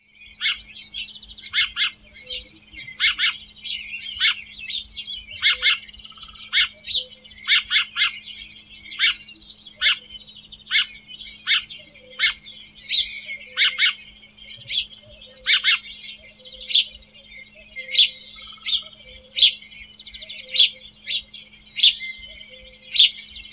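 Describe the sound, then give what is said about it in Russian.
A house sparrow chirping: many short, bright chirps in a lively, irregular series, fairly loud, over a faint low steady hum. “Воробей.”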